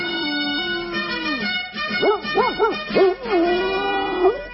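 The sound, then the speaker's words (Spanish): A dog, the Colonel, barks and yips in a run of short, high, harmonic calls. Each call rises and falls sharply in pitch, and the sequence ends in a longer whining howl. It is heard clearly on its own. “Corren hacia los ladridos del coronel.”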